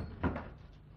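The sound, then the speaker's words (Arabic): A door is shut with a single soft thud near the start, followed by a faint quiet background. “وانت اقفل الباب.”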